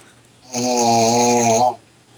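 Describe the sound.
A man snoring in his sleep: one long, loud, rasping snore with a buzzing, low-pitched rattle that starts abruptly and cuts off sharply after about a second, with quiet before and after.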